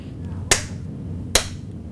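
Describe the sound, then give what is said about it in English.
Two sharp hand claps, slow and evenly spaced, imitating a performer's slow clapping during a concert, each a crisp crack over a quiet background. “and he says, every time I clap, an African baby dies, and he just keeps going.”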